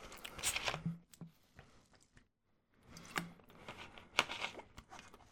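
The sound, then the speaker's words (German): A person pauses to take a quick sip of a drink. The sound is soft, close and slurping, with crinkly handling noises in two short stretches separated by a brief silence. “Ich will jetzt kurz einen Schluck trinken.”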